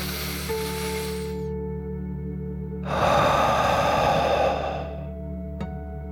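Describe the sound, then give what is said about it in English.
A deep breath drawn in and let out during a children's bedtime relaxation exercise, one slow, soft, airy rush lasting about two seconds over steady, sustained background tones. “Are you ready to take one more deep dragon breath? Here we go. Deep breath, in and out.”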